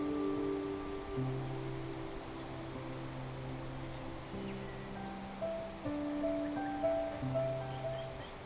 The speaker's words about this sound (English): to the sound of the birds in the canopy and the sound of that beautiful waterfall